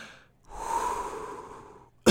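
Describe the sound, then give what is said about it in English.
A person takes a single long, deep breath, a steady airy rush lasting over a second that fades out. A short sharp noise cuts in right at the end. “Hold on, let me just breathe.”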